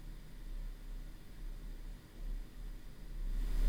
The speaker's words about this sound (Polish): Szumi to tak. Pewnie tu już będzie słychać szum komputera.